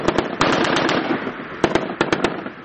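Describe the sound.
Light and heavy weapons fire during a commando military exercise in a mountainous area of Daman district, Kandahar: many sharp, loud cracking shots in quick clusters, separated by a gap of fading echo.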